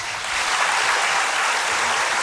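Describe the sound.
Applause for a band member being introduced, many hands clapping in a dense, continuous wash that swells briefly at the start and then holds steady.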